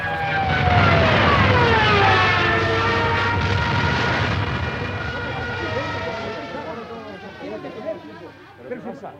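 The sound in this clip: Wartime warplanes diving: a loud, heavy engine roar with a whining tone that sweeps downward in pitch. It stays strong for several seconds, then slowly fades and thins out toward the end.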